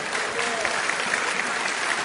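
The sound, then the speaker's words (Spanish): Steady, dense applause from a church audience at an Easter Sunday service, a continuous patter of many hands clapping throughout. “Den un aplauso a Dios que se lo merece.”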